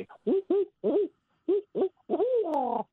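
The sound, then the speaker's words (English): A barred owl hoots its rhythmic 'who cooks for you' call, loud and alone: a few short, low hoots in quick groups, ending in one long, drawn-out, wavering hoot. “Barred owl has the very well-known call. People refer to the mnemonic for it. The way to remember it is, who cooks for you? Who cooks for you all?”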